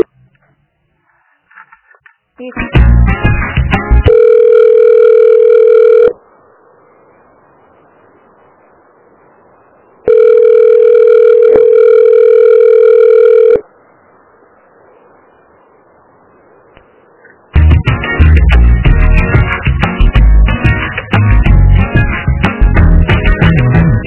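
A telephone call transfer tone: two long, steady buzzy tones, each lasting a few seconds with quiet gaps between them. Loud, harsh, distorted passages come before and after the tones.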